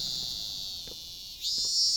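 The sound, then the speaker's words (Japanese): Cicadas drone loudly on a hot summer day, forming a continuous high-pitched buzzing chorus that swells louder near the end, with no voices. “できれば一緒になるのはこんなセミのうるさくない日が良かったけど”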